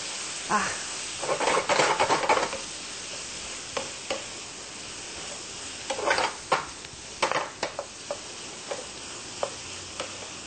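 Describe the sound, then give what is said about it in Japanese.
Soy sauce sizzling as it is poured around the side of a hot pan, a steady hiss broken by several short crackling bursts and sharp stirring clicks against the pan. “お醤油は鍋肌にじゅっと回しかけ、香ばしく少し焦げ目があった方が美味しいですね。”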